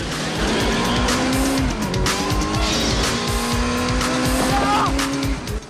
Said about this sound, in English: Then he jumps on the lawman's motorbike and races through the passengers, forcing one man to jump aside.